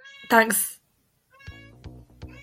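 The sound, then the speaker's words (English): A cat meows once in the background, a short bright cry with a wavering pitch, followed after a brief gap by a person talking. “sorry if you can hear my cats in the background”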